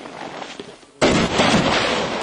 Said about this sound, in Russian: Перед самым взрывом нас отвели в безопасный район, где можно было наблюдать за лавиной.